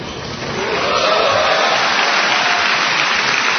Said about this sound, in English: After the cheering from more than 2,300 mostly National Guard and Reserve soldiers died down